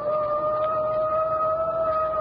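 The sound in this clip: A police car siren sounds during a car chase as a loud, steady howling tone. It holds one pitch without rising or falling for about two seconds.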